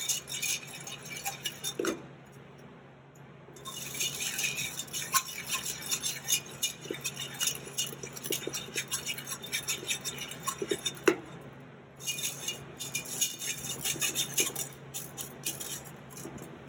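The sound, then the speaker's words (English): Ingredients are stirred together in a single cooking pan over low heat, with a continuous soft scraping texture broken by frequent light clinks and taps of a utensil against the pan. “So we're gonna mix everything in this pan.”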